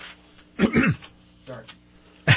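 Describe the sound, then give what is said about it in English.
Throat clearing from someone with a frog in their throat: a few short, gravelly rasping bursts with a brief quieter pause between them, fairly loud and close. “Sorry, I'm all choked up thinking about the... Am I doing this to you, or you're getting you all excited? No, just had a frog in my throat there.”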